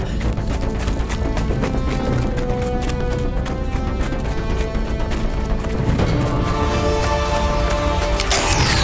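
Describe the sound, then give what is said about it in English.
Covering gunfire rings out in a Doctor Who battle against Daleks: dense, rapid bursts of sharp cracks and impacts pile up continuously over a loud, chaotic din. “There are Daleks everywhere. Run! I think we should do as she says, whoever she is. Yes. I'll give her some covering fire.”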